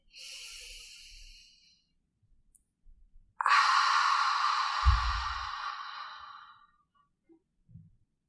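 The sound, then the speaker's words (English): Breath is drawn in softly through the nose during a guided meditation exercise, then after a pause comes a longer, louder exhale through the mouth, a breathy hiss like fogging a mirror that fades out slowly. “inhale through the nose to fill up the lungs and exhale through the mouth, making a sound like fogging a mirror. Exhale completely.”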